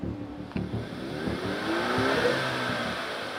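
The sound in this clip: A modified Ford Mustang's engine revs: a low, fairly quiet rumble that swells and climbs in pitch midway, then holds at a steady drone.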